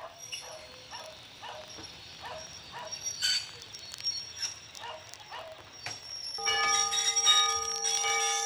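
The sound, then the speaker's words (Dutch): A large, massive white platform bell rings to announce the departure of a museum steam tram from Twisk, struck in many rapid, regular strokes, followed by a louder sustained ringing toward the end. “Ah, de perronbel. De grote, witte, massieve perronbel kondigt het vertrek aan van de stoomtram uit Twisk.”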